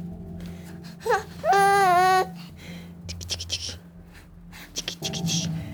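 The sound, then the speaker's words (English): A five-month-old baby babbles in a whiny voice that sounds like crying. A brief squeal comes first, then a longer wavering wail, and quieter fussy sounds follow. “Her baby, he was 5 months old at this point. It's too bad, he sounds like he's crying the whole time on tape, but really he was just trying to blab at me, smiling the whole time.”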